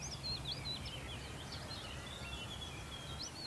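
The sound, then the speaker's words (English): Faint song of a willow warbler beside a lane on Sugar Loaf mountain, thin, high, rippling phrases repeated several times over a low, steady background hum. “I've stopped here after sort of a long, arduous climb up this lane. Been about 2 miles now, just because there is a willow warbler just up ahead.”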